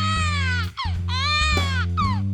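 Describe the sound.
An infant cries in several loud, insistent wails, each with a falling tail, repeating with almost no pause over a steady low drone.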